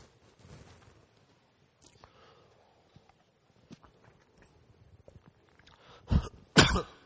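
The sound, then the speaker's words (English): Two loud, harsh coughs burst out one after the other near the end, as a person chokes on water at a church service before a Bible reading. Before them, only faint rustling and small movement noises sit in near silence. “Excuse me while I choke.”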